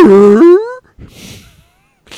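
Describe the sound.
A person imitates a dog barking with one loud, drawn-out, bark-like vocal cry, followed by quieter breathy, hissing vocal sounds.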